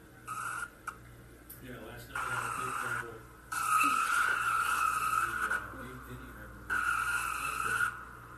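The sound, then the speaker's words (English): Tires squeal and skid as stock cars crash on a restart lap during the Virginia 500 Cup Series race, with several sharp, high-pitched bursts of squealing separated by brief gaps over a steady low engine drone. “Another crash right on the lap of the restart by Yarborough.”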